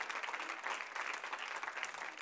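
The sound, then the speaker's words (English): An audience claps hands in praise during a church service, a dense, steady patter of many hands with a loose pulsing rhythm, fairly faint and continuous. “Let's give the Lord a good hand clap of praise as we sing it tonight.”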